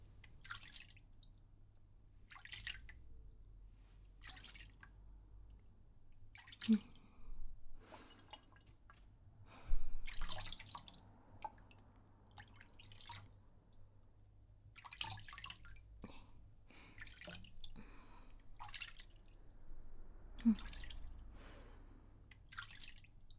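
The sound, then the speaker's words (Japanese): Water drips into a plastic bottle beneath a shampoo basin. Faint, irregular drops fall one after another over a low steady hum. “下のペットボトルに溜まっていく音、聞こえますか？ここに全部流れていくんですよ。”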